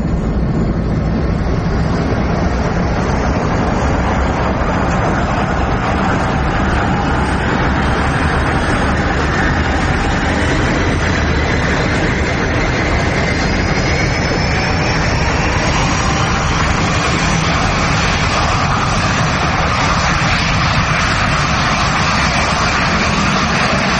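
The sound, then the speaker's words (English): An airliner takes off from a runway at Kennedy airport. A loud, continuous engine roar fills the whole stretch, and a high whine climbs in pitch during the later seconds. “Kennedy Tower. You're cleared for takeoff.”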